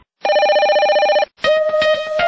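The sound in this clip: Telephone ringing in a radio call-in show jingle: a loud, buzzing electronic ring holds for about a second, then after a short gap a second ring returns with an effect-processed, distorted edge.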